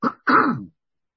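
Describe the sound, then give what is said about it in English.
A cough from a tickle in the throat: two quick rough bursts, a short one and then a longer, fuller one, with nothing after them. “I got a little tickle in my throat and I had to cough”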